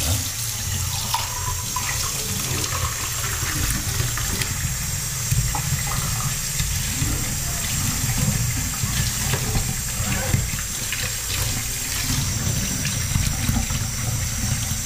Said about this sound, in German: Jetzt noch waschen. Die Tasse abwaschen natürlich.